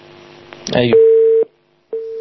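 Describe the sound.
A telephone line tone as an incoming call connects: two long, steady electronic beeps at an even mid pitch, separated by a short silent gap, after a brief burst of voice at the start.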